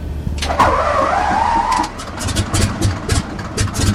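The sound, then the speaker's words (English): A Stearman biplane's engine warms up before aerobatics, a low, uneven rumble with rhythmic pulsing beats. A brief higher whine sweeps through near the start. “It's the sound of her Stearman biplane warming up as she prepares to do some aerobatics.”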